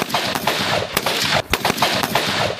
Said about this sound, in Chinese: 武警陕西总队西安支队组织实弹射击考核，官兵要在规定时间内自主完成目标判断、运动射击。